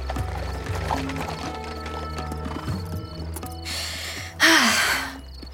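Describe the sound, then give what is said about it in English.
Hooves clip-clop steadily as a horse-drawn chariot arrives, over a low, continuous rumble, with a loud, breathy horse sound near the end. “A chariot arrived at the front to take them to the edge of the city.”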